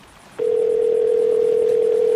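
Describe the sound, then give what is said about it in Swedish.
A steady telephone dial tone, heard as someone is about to call a doctor. After a brief quiet start it switches on abruptly and holds as a single loud, continuous mid-pitched tone to the end. “utanför Kaliforniens kust när hon till slut lyckas övertala honom att ringa en läkare.”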